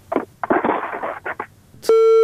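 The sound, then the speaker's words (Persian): A steady electronic tone sounds as a phone call drops and the line disconnects, cutting in loudly right after a voice talking and holding flat, unbroken pitch to the end. “بالاخره تماس قطع شد. یک تماس دیگه میگیریم.”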